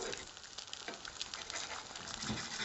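An egg frying in a pan, a quiet, steady sizzle with fine crackles and pops running continuously throughout.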